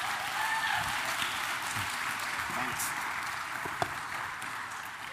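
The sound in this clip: An audience applauds to welcome a guest to the stage: a steady, dense wash of clapping that holds an even level throughout, with faint voices and a brief whoop mixed in.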